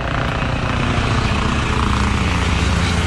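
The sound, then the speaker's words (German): A brand-new police helicopter in Mecklenburg-Vorpommern gives off a loud, steady roar of engine and rotor that stays even and unbroken throughout, with no voices. “Mecklenburg-Vorpommern hat ab heute einen nagelneuen Polizeihubschrauber.”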